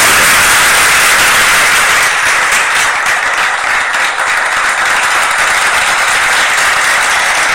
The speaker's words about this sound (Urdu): انہیں ہم تالیوں کی گونج میں استقبال کرتے ہیں.